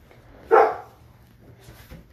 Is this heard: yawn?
no

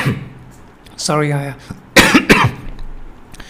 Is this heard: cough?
yes

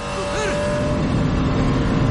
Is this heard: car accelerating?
yes

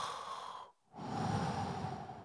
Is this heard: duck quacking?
no

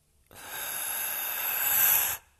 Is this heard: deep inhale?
yes

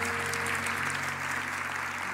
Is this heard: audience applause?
yes

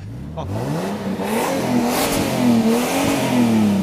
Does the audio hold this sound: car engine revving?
yes

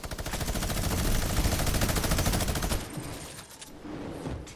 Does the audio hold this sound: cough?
no

